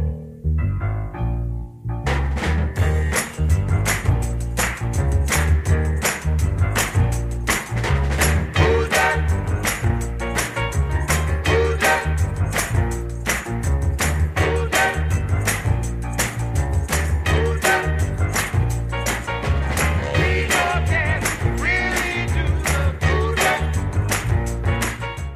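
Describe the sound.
A 1966 R&B dance record plays loud and continuous after a brief quieter start, with a driving steady beat and a full band throughout.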